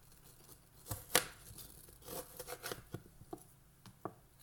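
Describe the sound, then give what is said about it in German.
A knife cuts away the last peel and core from fruit, making faint scraping and slicing sounds. A few sharper cuts stand out among softer rubbing strokes, with no voices. “schneiden wir jetzt noch den letzten Rest Schale weg und Gehäuse.”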